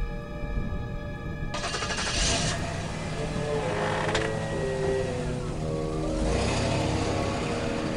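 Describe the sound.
A coupe's engine pulls away from a service station at night, giving a continuous mechanical rumble with a whirring, rattling texture. It grows fuller after the first second and a half and runs steadily to the end.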